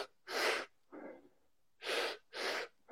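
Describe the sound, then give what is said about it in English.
Forceful breaths from a chest-and-belly breathwork demonstration come in a quick series of sharp, rushing inhales and exhales. They are loud and breathy, with one softer breath among them and no talking. “As soon as you finish that chest breath, you start the exhale. As soon as you finish that exhale, you come back to the belly breath. So here's what it would almost look like in real time.”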